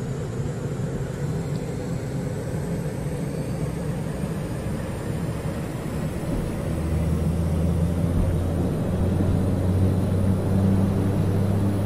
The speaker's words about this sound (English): Apply full thrust. Roger. Applying takeoff thrust.